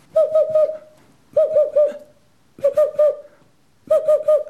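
Boreal owl hooting: four short bursts, each made of several rapid, mellow hoots in quick succession, with silent gaps between the bursts.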